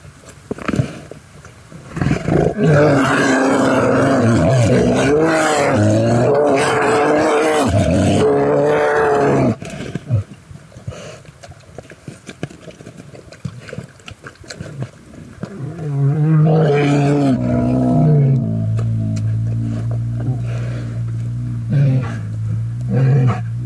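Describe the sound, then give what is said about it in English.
Grizzly bears, caught by a remote field recorder, give deep, loud roaring growls in two long bouts, each made of rough, wavering calls that swell and sag in pitch, with a quieter gap between them. “we set up a remote field recorder in the hopes of getting the sounds of grizzly bears. And this is what we got.”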